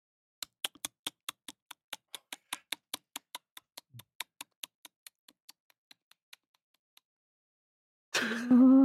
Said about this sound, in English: You don't hear it anymore. You don't hear the rustling or the scratching. But now, you hear ticking.